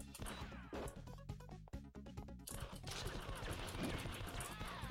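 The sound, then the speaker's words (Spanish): Rapid-fire shooting and crashing impacts from an arcade space shooter video game, fired diagonally, form a dense, continuous barrage of sharp bursts with a brief dip before the din picks up again. “Porque aquí ya vais tirando, disparando en diagonal.”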